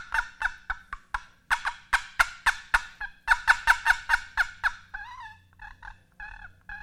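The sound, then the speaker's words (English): A wooden turkey box call gives loud, raspy, gobble-like yelps in two quick rhythmic runs. Softer, thinner yelping notes follow toward the end. “And so I was trying out these box calls. You can hear them because they're loud, and I was over there going...”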